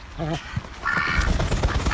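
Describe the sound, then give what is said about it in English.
Pet ducks quacking in a few short, nasal, buzzy calls, the first low and the later ones higher and brighter. “That's the sound of Pid and Pod. They're ducks.”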